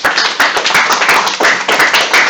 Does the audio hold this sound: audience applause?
yes